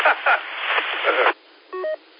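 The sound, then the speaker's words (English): Telephone dialing tones from a phone keypad: two short dual-tone beeps in quick succession, following a stretch of muffled, band-limited voice. “This phone won't let me dial the stupid number.”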